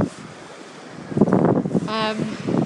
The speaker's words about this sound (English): we're by the beach, so please excuse the wind noise, and enjoy the sound of the waves crashing into the shore, which is rather pebbly around here.